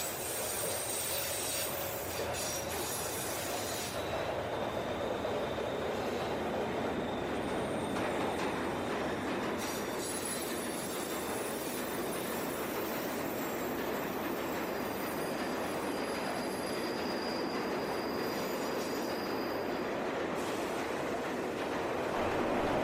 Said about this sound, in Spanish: El metro. Este no es de la Ciudad de México. O sea, sí es de la Ciudad de México el que acabamos de oír, pero es un sonido característico de las grandísimas ciudades